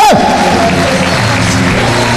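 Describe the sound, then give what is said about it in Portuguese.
A church audience bursts into applause, loud and dense, with cheering blended into the sustained roar of clapping. “Aplaudam o nome do Senhor Jesus de Nazaré.”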